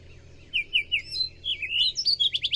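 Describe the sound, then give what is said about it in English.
Wild birds sing in a run of high chirps and quick, trilled notes. Several short rising phrases repeat rapidly over a low, steady background rumble. “It is just so wonderful to ride through the lives of these birds and eavesdrop on them”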